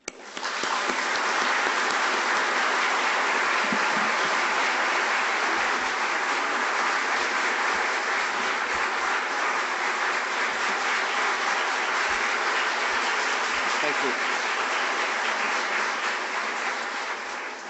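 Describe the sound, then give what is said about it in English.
An audience gives sustained, dense applause to welcome a visiting speaker at an event in New Zealand. The steady, loud clapping lasts the whole stretch without a break and thins only slightly at the end. “Please join me in warmly welcoming our visitor.”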